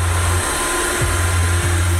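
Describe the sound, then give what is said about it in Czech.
Rowenta cordless stick vacuum cleaner running: a steady, loud whirring motor drone with a low hum that briefly wavers twice in pitch. “Počkej, ty už jsi uklidila. Jo. Ale vždyť jsi začala před chvilkou. To díky našemu novému tyčáku od Roventy. Je lehký, výkonný a dostane se i tam, kam ty ne.”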